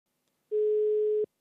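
A telephone dial tone sounds while a call is placed: one steady, even tone that starts abruptly, holds for under a second at constant loudness, and cuts off cleanly, with no voices.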